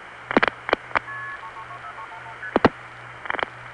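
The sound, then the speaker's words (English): Touch-tone dialing for a long-distance call from New York City to Fort Myers: a quick run of short, clear beeping tones, with a few sharp clicks before and after. “This is a long-distance call from New York City to Fort Myers.”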